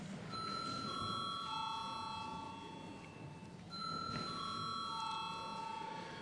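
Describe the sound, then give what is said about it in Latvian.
A bell rung in parliament before a vote sounds twice, each time a short run of clear ringing tones stepping down in pitch, moderately loud over a faint, hushed background. “lūdzu zvanu.”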